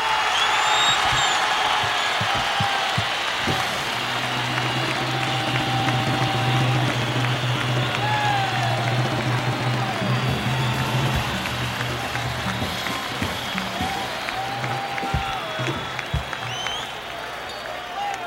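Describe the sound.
Crowd applause at a live Latin percussion concert: a sustained, dense wash of clapping that runs steadily through the whole clip and eases off slightly at the very end.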